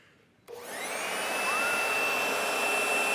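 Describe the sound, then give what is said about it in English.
A blower switched on in a garage starts abruptly after a brief quiet moment, then spins up into a loud, steady roar with a high whine that climbs in pitch and holds. “Oh, the blower, right? Isn't the blower great?”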